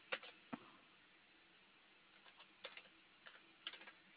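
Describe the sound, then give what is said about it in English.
Sparse, faint keystrokes on a computer keyboard during a phone call about account details, coming as scattered single taps and short clusters. “If I could type correctly, that would be great.”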